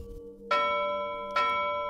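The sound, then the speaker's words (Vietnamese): Loud bell chimes ringing out from a magic talisman, two resonant strikes whose bright, sustained tones ring on and overlap without any talk. “Lá phù phát ra 3 tiếng chuông ngân to lớn”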